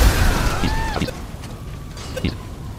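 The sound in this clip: An explosion goes off in a driving-and-shooting video game: a loud low boom at the start, then a rumbling tail with whistling tones and a few smaller pops. Voices react over it.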